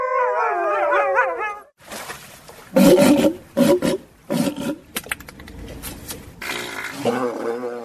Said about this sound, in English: This is the sound of simangs, endangered red wolves, and walruses, some of the zoo animals you can hear throughout Tacoma.